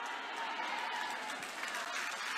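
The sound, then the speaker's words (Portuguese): Congregation clapping hands during a church service, a steady, dense patter of many hands that runs evenly through the whole stretch at moderate loudness. “misture essas palmas aí com glória a Deus”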